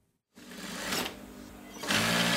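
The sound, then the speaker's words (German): A sewing machine hums as a worker sews a hem on a beige sofa cover in a small furniture workshop in an Istanbul working-class district. After a brief silence the quiet whirring starts and runs steadily, swelling in two louder bursts. “Die Nähmaschine summt in der kleinen Möbelschreinerei von Mazen in einem Istanbuler Arbeiterviertel.”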